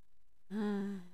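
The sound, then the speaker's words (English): A brief, soft voiced exhale, like a gentle sigh, closing a last deep breath in a guided meditation; it begins abruptly after near silence and tapers off quickly. “Coming up on our last deep breath.”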